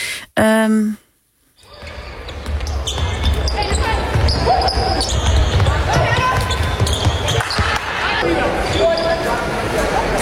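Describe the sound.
Sports being played in a gymnasium: a ball bouncing repeatedly, sneakers squeaking sharply on the floor and a constant busy hubbub of activity with voices, following a brief clear tone and a moment of silence at the start.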